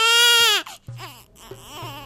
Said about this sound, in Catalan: És plor antic. Plor antic.